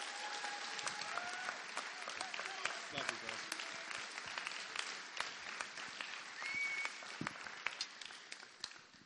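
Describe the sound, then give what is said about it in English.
Audience applause welcoming a speaker to the stage at a worship gathering: dense, sustained clapping that stays fairly faint and even throughout. “So why don't we give him a really, really warm welcome as he comes up to speak?”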